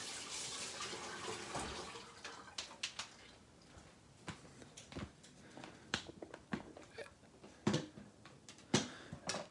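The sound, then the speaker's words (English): Running tap water as a sticky rubber brush is rinsed under it: a steady, splashing stream broken by many irregular sharp splashes and knocks throughout. “So rinsing it off.”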